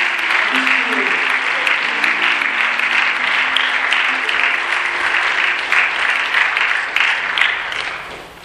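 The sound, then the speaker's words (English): An audience at a morning service gives a guest speaker a warm round of applause: dense, steady clapping sustained for several seconds, a voice briefly audible underneath early on, before the applause thins out at the end. “So would you do me the great favor today? Would you put your hands together? And would you welcome our brother this morning as he comes to speak to us?”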